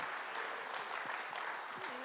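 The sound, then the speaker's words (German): An audience clapping and cheering at a church service, a dense, steady wash of applause that stays faint throughout, with a few voices rising within it. “Und jetzt klatschen wir, jubeln wir mal.”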